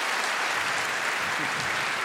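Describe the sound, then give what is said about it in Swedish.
Applause from an audience, a dense, continuous wash of many hands clapping at an even, steady loudness throughout. “Då ska vi en applåd för det.”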